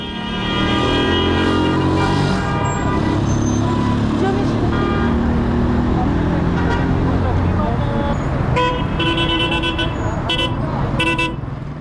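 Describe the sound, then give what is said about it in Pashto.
Street traffic at a vehicle stop in Kabul city: a steady roar of engines and road noise, with voices and a few short car-horn toots near the end. “زه هم د کابل ښار د موټرونو یو تم ځای ته چې هلته خلکو په ساعتونو د موټر یا ملي بسونو انتظار کوه ورغلم”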